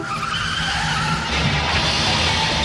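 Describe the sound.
Car tires skid in a road accident, a loud, sustained screeching rush of friction that holds steady for under three seconds with no voices.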